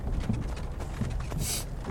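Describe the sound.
Horse-drawn wagon from the opening scene of the video game Skyrim: a low, steady rumble carries a few soft hoof clops spaced irregularly through it.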